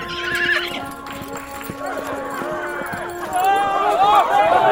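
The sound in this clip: Rocinante, Don Quixote's horse, neighs loudly while hooves clop steadily, with a voice speaking over the horse sounds.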